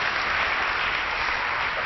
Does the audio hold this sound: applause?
yes